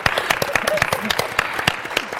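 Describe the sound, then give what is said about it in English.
Brief round of applause from a small audience at a panel event, many quick, light handclaps at moderate volume. “Yes, a little clap for that.”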